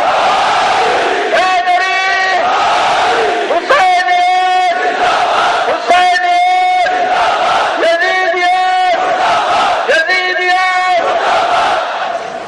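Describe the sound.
A crowd of young men chants slogans at a rally with hands raised, shouting at full voice. Five loud unison bursts come in a regular repeating pattern, each rising above a continuous rumbling roar of crowd noise between them.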